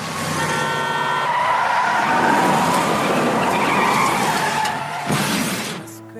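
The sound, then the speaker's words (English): Car crash: a loud, sustained screech of skidding tires runs for about five seconds and ends in a sharp impact with shattering, then quickly dies away, with no talk. “Boy, that was bassy. Did you feel the bass there in that crash? That was awesome.”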